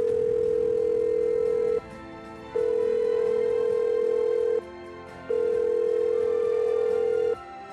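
A ringback tone plays on a telephone line while a call waits for voicemail to answer. Three long, steady, loud tones are separated by short pauses, with no talk.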